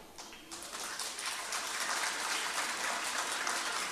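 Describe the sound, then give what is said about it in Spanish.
Audience applause at a Chilean payadores performance of improvised sung verse: dense, steady clapping that swells in the first second and then holds at an even, fairly loud level with no voices over it. “Veamos por aplauso.”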